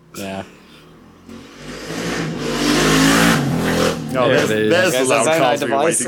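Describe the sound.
Loud vehicles pass outside a window, a roaring engine swelling and then easing off, while people talk at the start and again over the tail of the noise.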